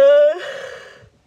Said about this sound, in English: I'm not crying, I'm yawning. Don't get it twisted.